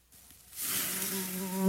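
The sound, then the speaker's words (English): A mosquito buzzing sound effect swells in after a brief quiet start, becoming a steady, bright whine with a low droning hum that grows clearer toward the end. “Let's buzz over there and have a picnic of our own. Don't become a mosquito's meal at your own cookout.”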